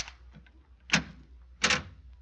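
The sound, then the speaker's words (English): A key works a door lock, producing a few sharp metallic clicks and rattles spaced by short pauses, with a faint low hum underneath. “Locked. I got some keys. It's an easy lock. Here we go, kid.”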